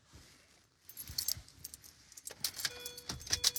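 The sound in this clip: Keys jangle as a car key is handed over, giving many bright metallic clinks. They begin faintly, pause briefly, then come in louder, busier clusters of rattling jingles with no voices.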